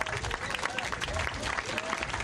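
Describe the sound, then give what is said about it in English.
Audience applause welcoming the District 10 Supervisor to speak at a community event in Bayview Hunters Point: a dense, continuous patter of clapping that stays even throughout. “So please join me in welcoming District 10's Supervisor, Shimon Walton.”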